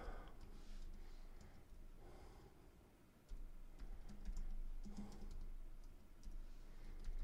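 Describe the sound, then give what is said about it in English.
Someone types a keyword on a computer keyboard: a few scattered, faint key clicks over low background noise, with no talk. “So I can type in a keyword.”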